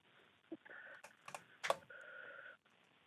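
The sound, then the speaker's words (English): Computer keyboard typing as a web address is entered: a few faint, irregular key clicks and taps over a soft, steady background tone, with no talking. “If you just go ahead and type that in for me.”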